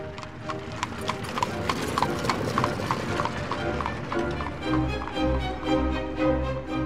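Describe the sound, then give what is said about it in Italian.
A thin, hungry horse clip-clops in a steady rhythm as it sets off pulling a four-wheeled mail coach, its hoofbeats clear over a continuous low rumble. “Il cavallo, tutto fame e pieghe, iniziò il lungo viaggio.”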